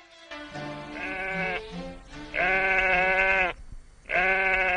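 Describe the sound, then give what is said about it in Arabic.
Sheep bleating, the Eid sacrificial sheep in a 1962 Egyptian radio comedy: a few long, loud, quavering bleats with rich harmonics, separated by short pauses and heard alone. “يا أختي، ما خلاص عرفنا إن الست تفيدة اشترت خروف، ناقص يجيبوا له ميكروفون ويعلقوا في رقبته جلاجل”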